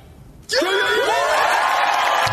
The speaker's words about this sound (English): And the crowd now loves it.